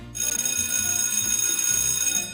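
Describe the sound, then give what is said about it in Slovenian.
An electric school bell rings at a primary school in Maribor, a loud, continuous metallic ringing that starts abruptly and holds steady throughout. “Tako pri nas in pri vas je pozvonil šolski zvonec.”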